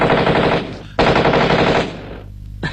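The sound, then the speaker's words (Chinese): A voice imitates machine-gun strafing from aircraft: two long, loud, dense rattling bursts, followed by a fainter stretch and a short final burst. “这日本鬼子的飞机啊，在天上是又是扫射又是扔炸弹”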